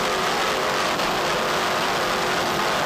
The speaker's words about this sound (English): Let's listen to those Mercury power plants. Three 1,000-horsepower Mercury inboards.